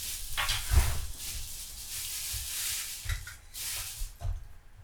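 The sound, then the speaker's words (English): Crinkly rustling of plastic bags being handled as food arrives for a pulled pork and pizza-style meal. The crackling noise is continuous and uneven, with a few louder crunchy bursts and no talking. “Please excuse the ruffling of the plastic bags.”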